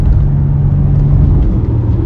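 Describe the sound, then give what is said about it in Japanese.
A car engine accelerating hard in third gear, heard as a loud, steady low rumbling drone with a firm, constant tone over two seconds. “3で加速しておいて2落とす。”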